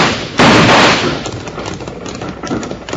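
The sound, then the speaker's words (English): Rifle gunfire in a night shootout among rocks: one loud blast near the start, then a few fainter, scattered cracks over a steady noisy background. “Now they've stopped shooting.”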